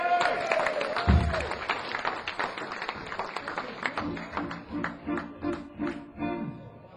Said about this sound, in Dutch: Dus dames en heren, daarvoor een applaus.